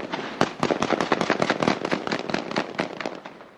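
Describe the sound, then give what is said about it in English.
Masked gunmen fire into the air, producing a rapid volley of loud, sharp cracks in quick succession. The shots pile up densely with barely a gap between them. “Masked gunmen fire into the air with impunity here, emboldened by Israel's planned pullout.”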